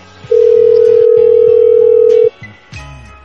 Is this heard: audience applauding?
no

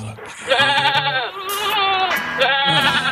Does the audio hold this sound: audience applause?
no

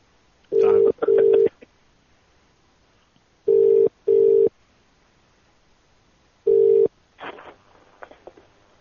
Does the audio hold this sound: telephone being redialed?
yes

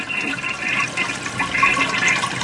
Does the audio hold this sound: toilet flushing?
yes

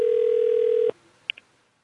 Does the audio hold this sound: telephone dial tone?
yes

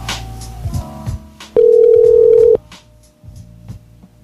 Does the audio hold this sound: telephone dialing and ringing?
yes

